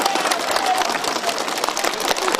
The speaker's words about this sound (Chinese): 广场上掌声经久不息。